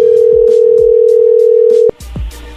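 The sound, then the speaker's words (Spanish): A telephone tone sounds on an unanswered call: a loud steady tone holds one pitch for almost two seconds, then cuts off abruptly and is followed by a few faint clicks and handling noises. “Parece que no está contestando Kevin. Bueno, vamos a marcarle otra vez.”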